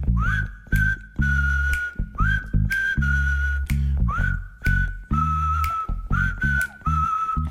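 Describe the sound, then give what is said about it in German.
A person whistles a well-known melody alone, in clear repeated phrases. Each phrase slides up into a sustained, steady note. “man kennt die Melodie, man kann sie auch pfeifen, so bekannt ist die.”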